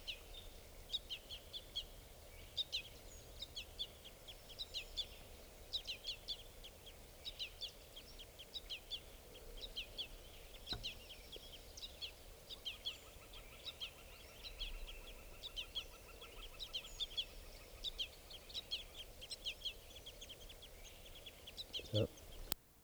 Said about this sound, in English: one of the birds is a juvenile giving bang calls. So we can pick it up here.